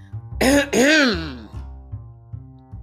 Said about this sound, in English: cleared her throat really loud as to interrupt our conversation